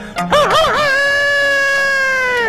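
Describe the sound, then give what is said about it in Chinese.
A rooster kept by a household crows once. The call opens with a brief wavering, warbling phrase, then settles into a long, loud held tone that fades at the end. “有的个别家哎，还养活了2只鸡，这2只鸡也不搅闷，天天打鸣”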